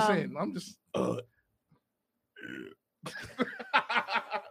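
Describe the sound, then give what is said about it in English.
A person fakes a burp with their voice, a short croaky belch-like noise set between bursts of talk and vocal sounds. “Because that wasn't even a real burp. Yes. That was a fake noise.”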